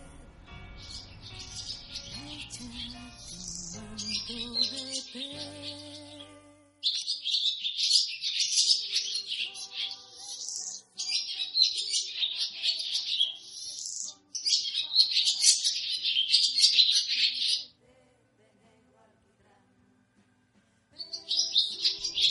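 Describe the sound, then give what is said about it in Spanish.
A small bird sings inside a radio studio, giving bright, high twittering and chirping phrases in several bursts separated by short pauses, heard alone without talk. “Está un poquito nervioso el pajarito aquí adentro, ¿no? Bueno, claro, este no es su medio. ¿Le gustan los árboles? Aquí no hay árbol. Solo la canción.”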